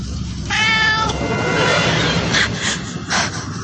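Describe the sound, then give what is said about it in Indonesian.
A kitten meowing: one clear, high-pitched meow, then a couple of fainter cries over a steady rumbling background noise. “aku terkejut kaget ketika aku dengar seperti ada suara anak kucing”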